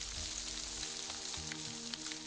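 Rain falling at midnight: a soft, steady hiss of patter with faint scattered drops, low in level throughout, with no voices.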